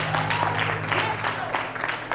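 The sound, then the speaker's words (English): A church audience claps hands in praise during a sermon, with quiet, rhythmic bursts of clapping repeating over a steady low hum. “Give the Lord a hand clap and praise.”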